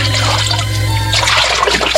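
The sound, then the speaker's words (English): Water splashing at a river as someone washes, a steady, fairly loud watery rush running unbroken through the whole moment. “the daughter of Pharaoh came down to wash herself at the river”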